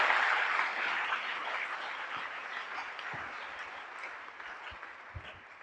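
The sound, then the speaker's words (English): A church audience claps hands in dense, continuous applause that stays steady and loud throughout, easing off slightly toward the end. “Clap for Jesus. Clap for Jesus.”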